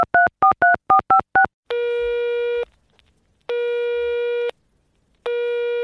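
Telephone tones sound while a call is placed: a quick run of short beeps alternating between two pitches, then three long, steady, loud tones separated by silent gaps.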